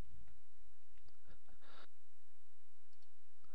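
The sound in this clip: Faint mouse clicks press through a virtual machine setup wizard to click the Finish button. A few short, soft clicks sit over a low steady hum, with no talking.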